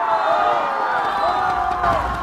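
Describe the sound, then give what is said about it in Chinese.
A crowd cheers at a humanoid robot football match, a continuous roar of many voices with whoops rising over it. “每当机器人完成一次精彩防守、精准传球或是破门得分，现场便响起阵阵欢呼与掌声。”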